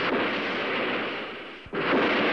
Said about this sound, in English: These are sounding rocket launches.